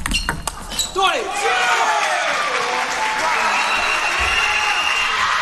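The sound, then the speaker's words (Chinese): A table tennis ball bounces during a reverse serve, with a few sharp clicks at the start, then a loud stretch of crowd noise and applause. “换了一个逆侧的发球”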